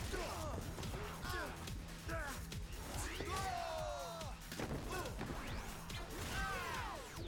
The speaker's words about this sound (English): Ooh, he's got a sound effect every time he swings his arm blade thing.